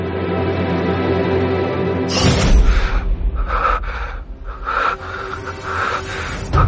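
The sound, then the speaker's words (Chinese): Heavy, rapid breathing heard through headphones, a run of many harsh, noisy breaths that rise and fall in loudness after a steady tonal opening. “耳机里传来粗重且急促的呼吸声，孟昭倏地皱紧了眉。”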